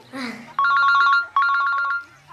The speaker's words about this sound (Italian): Che palle il telefono.